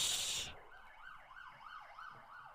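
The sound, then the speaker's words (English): Siren of a passing emergency vehicle: a fast, repeating up-and-down yelp that rises and falls several times, fairly faint, after a short loud burst of hiss at the start. “That was a siren going past, but I think it got caught on the little this it thing.”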